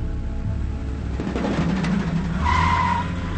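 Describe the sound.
A car speeds away after backing out of a driveway at night, a loud continuous engine roar with skidding tire noise, and a steadier, higher tone joining near the end.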